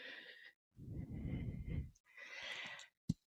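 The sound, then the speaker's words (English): A deep breath released all the way out during a yoga session: a long, breathy rush of air lasting over a second, with softer breaths around it and a brief click near the end. “Breathe in. And breathe all the way out.”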